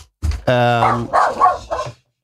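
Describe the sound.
A man's voice imitates an angry dog barking, giving a few loud, gruff barks and growling yelps in quick succession.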